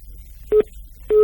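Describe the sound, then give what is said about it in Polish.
Busy signal on a telephone line after a dropped call: two short, steady mid-pitched beeps separated by a pause, with the second tone running to the end. No voices. “No niestety przerwało się połączenie”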